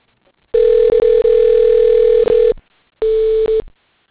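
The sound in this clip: Ringing tone on a telephone line as a call is transferred to voicemail: a steady, loud, mid-pitched electronic tone in two bursts, the first about two seconds long with brief dropouts, the second shorter, separated by silence, with no talk.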